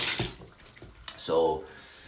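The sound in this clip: Tap water runs briefly while someone washes their hands, with short, faint rushes of flowing water that start and stop.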